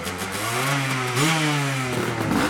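An old motorcycle revs hard as its rider accelerates away into a nearby forest on a demanding off-road course, a loud continuous engine drone whose pitch climbs in steps.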